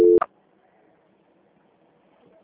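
A brief telephone tone during a call transfer: one short, steady beep at the very start, followed by faint line hiss and near silence.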